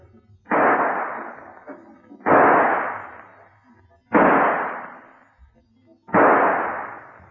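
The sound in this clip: Four gunshots ring out one at a time during a crime-drama confrontation, each a loud, sharp blast with a lingering decay, spaced roughly two seconds apart with quiet gaps between them.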